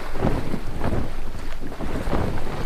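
Wind and sea noise around a sailing ship off the Jamaican coast: a loud, steady roar of gusting wind with surging, rumbling swells throughout, no voices.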